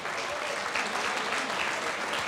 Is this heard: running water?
no